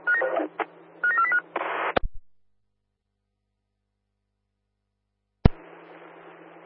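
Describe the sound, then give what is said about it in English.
Telephone dialing tones: a quick run of several loud keypad beeps, a click, then silence, followed by a sudden click and a steady hiss of line noise. “receive that, dialing now.”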